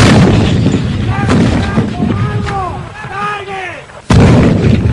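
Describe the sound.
Artillery fires on a shouted command to fire in wartime: rumbling gunfire under shouting voices, then one heavy, loud blast near the end.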